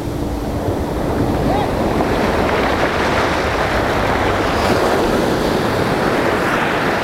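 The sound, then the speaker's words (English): Ocean surf roars continuously, mixed with heavy wind buffeting the microphone. It stays loud and even throughout, with no distinct single wave breaks. “I love the ocean.”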